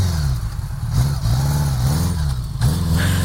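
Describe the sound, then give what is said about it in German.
Engine of a Goldwing heavy touring motorcycle, a big luggage-laden machine, running with a deep, steady low rumble whose pitch wobbles gently up and down as it revs lightly. “Kenner, erkennen Sie am Knatterton? Das ist eine Goldwing, ein schweres, dickes Reisemotorrad, oft eine üppig bestückte Maschine mit Koffern für einiges an Gepäck.”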